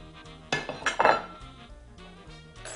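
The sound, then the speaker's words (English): A plate being picked up and handled while plating enchiladas, with a cluster of sharp ceramic clinks and knocks near the start, then quieter scraping and light taps. “Now you're going to take your plate.”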